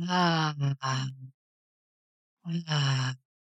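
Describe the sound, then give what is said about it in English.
Breathwork exhales, in through the nose and out through the mouth with sound, to calm the nervous system: two groups of voiced, sighing out-breaths with a humming vocal tone, split by a silent pause, with no talk. “So in through the nose, out through the mouth with sound.”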